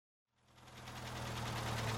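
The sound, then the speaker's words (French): A car engine rises from silence and settles into a steady, low rumbling idle with a faint rhythmic knock. “On entendit alors un bruit de voiture.”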